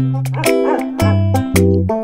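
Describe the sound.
A dog whimpering, a string of short tonal whines that step between pitches, broken by a few sharper high-pitched yelps.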